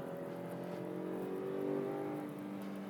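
Engine of an M3 with a dual-clutch transmission driven on a racetrack. A fairly faint, steady droning hum whose tone lifts slightly midway, then eases back, with no talking.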